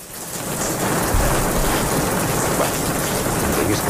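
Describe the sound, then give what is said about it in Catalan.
Heavy, steady rain hisses loudly and evenly throughout, with a low rumble of thunder rolling beneath it. “Podem fer que plogui una mica,”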